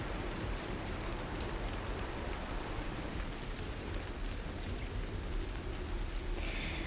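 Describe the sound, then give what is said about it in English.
Steady rain falls with a dense, even hiss of drops. It is continuous and unbroken, with no voices. “There's a cave nearby. We can rest Get you dried up. Wait out the rain.”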